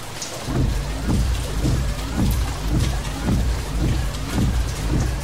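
Steady heavy rain at night, heard from inside a car: a dense, loud hiss with regular low thumps pulsing about twice a second throughout, and no talk.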